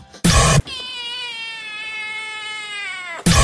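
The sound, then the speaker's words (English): A cat gives one long, drawn-out meow that sinks slightly in pitch as it goes on, set between two short, loud bursts of noise at the start and the end. “That is definitely a cat.”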